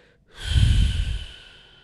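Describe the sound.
A runny nose is sniffed in one strong, noisy intake of breath that swells for about a second and then trails away.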